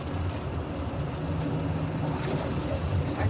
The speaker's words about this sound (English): Oh, don't turn it on. What's wrong? I turned the blower on.